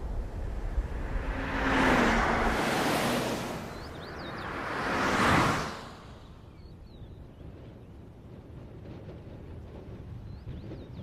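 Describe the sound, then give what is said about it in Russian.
Two cars drive past on a sunny-day road, one after another, beside a traffic police car parked at the roadside. Each pass is a broad whooshing swell that rises and fades over steady low background rumble. “Возле обочины стоит машина ДПС. Проезжают машины.”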